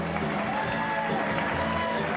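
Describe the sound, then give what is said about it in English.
A crowd cheering and clapping as twin brothers arrive at a hall: a continuous, dense roar of voices and claps with no pauses. “When the twin brothers arrive at the hall, the crowd goes wild, slapping their backs and snapping smartphone pics.”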